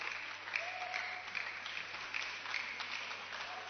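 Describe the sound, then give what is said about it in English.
Applause from a church camp audience, a soft, steady patter of clapping with a few louder claps standing out. “Okay, so put your hands together for Reverend Eddie as he. Reverend Eddie.”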